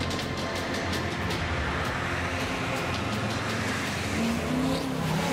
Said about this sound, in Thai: เดี๋ยวผมจะลดเกียร์ต่ำลงรถมันจะกระตุก